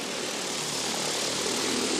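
A delivery drone in flight gives off a steady, loud propeller buzz with a dense, even whir that holds without a break.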